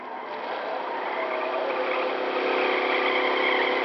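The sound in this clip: Steady engine drone of a nuclear roadster driving fast in a radio drama, a continuous whirring roar that holds constant and grows slightly louder toward the end.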